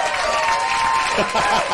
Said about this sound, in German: Hier ist ein Applaus.